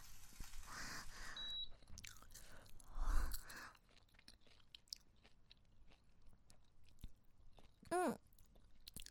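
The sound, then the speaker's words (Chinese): Chewing and biting on hot, freshly scrambled eggs: faint, irregular mouth sounds with a brief louder burst of crunching partway through. “这是刚炒出来的鸡蛋，好香！我先尝尝。”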